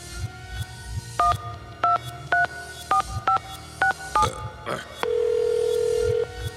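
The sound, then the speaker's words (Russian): A telephone being dialed to call someone: a run of about seven short, sharp touch-tone key beeps at an uneven pace, followed by one long, steady electronic tone. “А я вот сейчас вот ему позвоню.”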